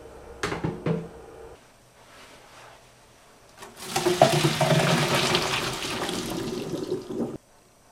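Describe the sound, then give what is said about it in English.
Hot water drains off cooked carrots in a loud, steady rushing splash that lasts about four seconds and then cuts off abruptly. A couple of brief knocks come before the pour. “the next step is to drain. Easiest way to drain, get one of these guys.”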